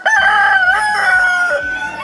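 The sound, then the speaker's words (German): A small rooster crows at a cockfighting event: one loud, sustained, strongly tonal call lasting about two seconds, with no talking. “Der Halbzeitführende ist einer der kleinsten Hähne momentan, also der legt sich da mit den ganzen Großen an”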